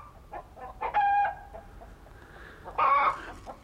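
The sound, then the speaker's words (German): Small chickens cluck and squawk: a few short clucks, then two louder, drawn-out tonal calls with a quieter stretch between them. “Du, deine kleinen Hühner rücken ab.”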